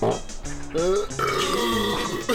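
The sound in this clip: A loud, drawn-out burp from someone drinking beer in the morning, voiced and rumbling with shifting pitch, running almost unbroken for a couple of seconds.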